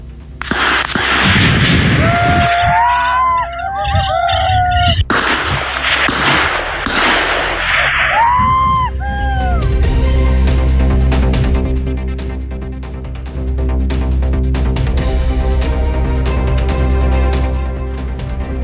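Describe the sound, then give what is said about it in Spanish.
Ambient noise from a police operation in a forest involving armoured vehicles and semiautomatic weapons and shotguns: a loud, continuous low rumble with repeated sharp bursts and pops layered over it. “Escuchemos parte de ese ruido ambiente cuando se iniciaba el operativo.”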